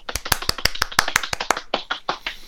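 Applause in a quick, evenly spaced run of sharp, crisp hand claps, roughly a dozen or more, growing a little softer and looser toward the end.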